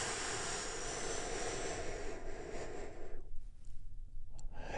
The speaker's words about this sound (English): And we get that started by taking a big, deep, healing breath all together.